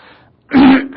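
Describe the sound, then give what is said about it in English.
A throat clear from a speaker during a Bible teaching: one short, loud, low rasping burst, followed by the start of a second brief clear. “Excuse me. I could tell this was going to be a throat-clearing night.”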